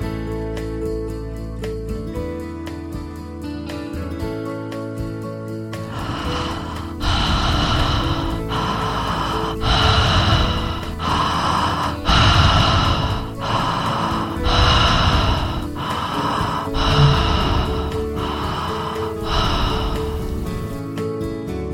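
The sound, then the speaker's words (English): Slow, deep breathing: long drawn inhales and exhales follow one another in an even, unhurried rhythm over soft, sustained background music, each breath swelling and fading as a breathy rush. “the exhale's begun. And before the exhale's finished, the inhale's begun.”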